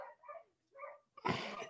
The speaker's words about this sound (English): because somebody's dog is yapping, yapping, yapping